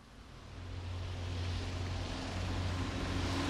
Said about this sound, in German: Da kommen sie. Lauter Zirkuswagen kommen da angerollt. Und Lastwagen.